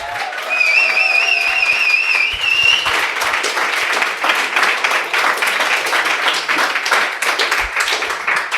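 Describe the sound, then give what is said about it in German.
A crowd fills a pop-up store in Berlin Mitte, with dense, loud clapping and crowd noise running steadily through the whole stretch. “Wir sind im Pop-Up-Store von Vi hier in Berlin in Mitte und der Laden ist voll. Ihr könnt es hören.”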